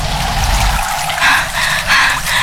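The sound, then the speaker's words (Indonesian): River water flows in a loud, continuous splashing trickle with a couple of brief surges in strength and no voices over it. “ayo sekarang kita ke sungai”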